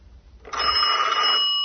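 A telephone rings with a bright electronic tone that cuts in after a short moment of near quiet and then holds steady and fairly loud, a single continuous ring lasting to the end.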